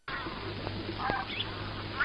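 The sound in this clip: Faint honking calls of wild geese flying south in an old film scene: a few short, scattered cries over a steady hiss.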